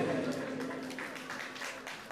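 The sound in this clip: Applause from guests at a gathering, a steady wash of clapping that carries on throughout with a voice speaking over it.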